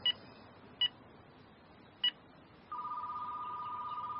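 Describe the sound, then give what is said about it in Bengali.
A telephone number being dialed: three short keypad beeps at uneven intervals, then a steady electronic tone that holds to the end, with no voices. “তার number dial করল।”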